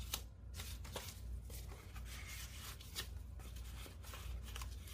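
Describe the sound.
Paper cards, including a vintage library card, slide back into the pockets of a paper-craft file folder. The result is steady, dry papery rustling and scraping with no voices.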